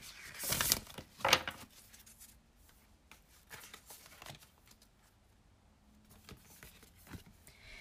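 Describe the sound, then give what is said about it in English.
Card being drawn from a cannabis oracle deck: two sharp papery shuffling bursts early on, followed by a few faint scattered rustles and soft handling noises in an otherwise quiet setting. “let's pull one more card for you from the cannabis oracle”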